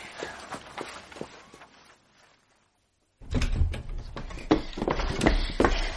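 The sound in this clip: Running footsteps, a quick series of light steps and scuffs that fades to a moment of silence, then resumes as louder, heavier thumping strides with sharp knocks.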